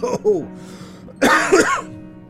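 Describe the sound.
Coughing after a drink went down the wrong way comes in two harsh, voiced bursts separated by a short pause. The second fit is louder and more rasping than the first.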